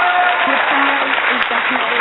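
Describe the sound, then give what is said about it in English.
An audience applauds, a continuous even wash of many hands clapping, while someone talks over the clapping throughout. “Very deserving of that applause.”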